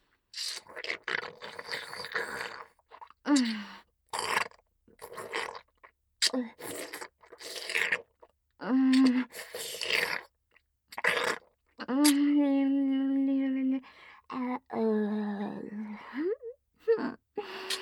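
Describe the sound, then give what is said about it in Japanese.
Wet licking and mouth sounds come in short, close bursts, broken by brief gaps and soft voiced moans and breaths. “でも、おいしいから、頑張って、ペロペロしてあげる。”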